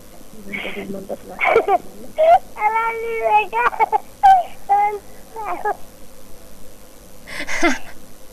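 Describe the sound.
A small baby who cannot yet talk babbles and whimpers down a phone line, making many short, high-pitched cries and coos in irregular bursts over a faint line hiss.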